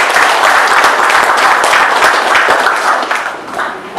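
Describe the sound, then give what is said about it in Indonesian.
An audience breaks into applause to honour a long-struggling worker at an Indonesian gathering. The thick, steady clapping holds for several seconds, then thins and tapers off toward the end. “Aplaus untuk Pak Haji Suhoro.”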